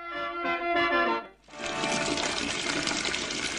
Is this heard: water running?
yes